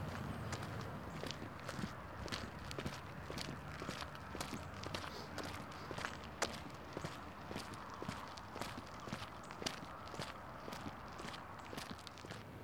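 Footsteps of people walking toward a community center on a cold, windy day: a long, steady rhythm of many even steps with no talk.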